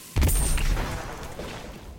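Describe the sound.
Grenade launcher explosion in a Crucible multiplayer match of the video game Destiny 2: one sudden low boom strikes sharply, then trails off over a second or so, heard on its own.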